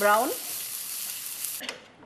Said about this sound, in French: Pour que les oignons soient savoureux, il faut qu'ils soient bien dorés.